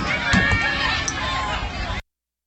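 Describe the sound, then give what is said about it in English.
Riot police in riot gear march in lines down Baltimore streets, a dense shuffling tramp of feet under crowd voices that stops abruptly after two seconds. “That was audio from a live stream from Baltimore today, which shows militarized police in riot gear marching in lines down the streets of Baltimore, accompanied by an armed personnel carrier.”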